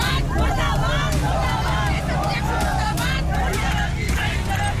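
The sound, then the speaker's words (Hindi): Angry BJP workers protesting on a national highway, a dense babble of many raised voices with vehicle noise underneath, steady and loud throughout. “नाराज BJP कार्यकर्ता national highway पर उतर गए, पत्थरबाजी शुरू कर दी। विरोध में नारेबाजी तक कर दी।”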